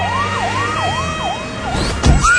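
A police siren sound effect wails loudly through several cycles, each tone climbing slowly and then dropping sharply, before a low thump breaks in near the end.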